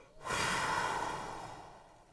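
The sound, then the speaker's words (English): A deep, audible breath out on a cold winter morning outside. It is a single breathy rush that begins abruptly, holds strong and then slowly fades over about two seconds. “you take a deep breath in, and you go,”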